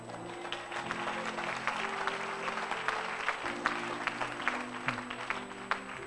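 A church audience applauding, with dense, steady clapping that carries on through the whole clip under a sustained low tone.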